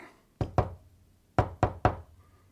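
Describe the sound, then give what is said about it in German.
An agreed knocking signal: five sharp knocks, a quick pair and then, after a pause, a quick group of three, each crisp and alone. “Ich wollte mich gerade mit unserem Klopfzeichen bemerkbar machen.”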